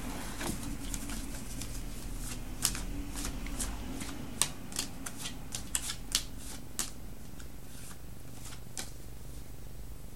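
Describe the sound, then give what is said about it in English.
Tarot cards being shuffled before a card is drawn: many crisp, papery riffles and sharp clicks come in an uneven run over a steady low hiss, with no talk. “So let's get a card from the After Tarot.”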